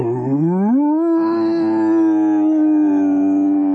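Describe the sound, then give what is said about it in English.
A long, liquid howl from a wolf-like creature: a loud, tonal wail that climbs in pitch at the start, then holds steady and sustained to the end, with no other sounds. “The word turned into a long, liquid howl.”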